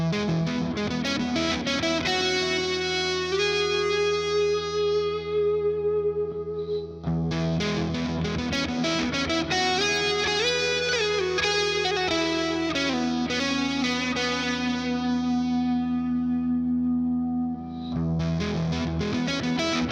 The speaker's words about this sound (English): 88S amp switcher, so I'm switching through the different amps in this example. It allows me to connect all my amplifiers in the studio and then just alternate between them at will.